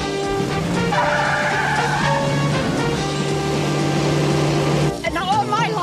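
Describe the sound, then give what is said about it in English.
Tires squeal steadily as a car skids during a film car chase. The sustained, high-pitched screech runs over engine noise for about five seconds, and a voice briefly comes in at the end. “There's some awesome auto explosions during this.”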